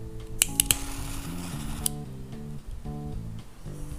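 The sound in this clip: A lighter is flicked underneath a fan, a few sharp metallic clicks in quick succession and one more shortly after, set over a steady musical beat.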